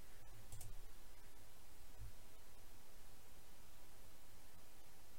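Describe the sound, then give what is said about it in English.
Faint computer mouse clicks while navigating CRM software, a few sharp isolated clicks set against a low steady hiss. “So I can click here and go open in CRM. So I can open me.”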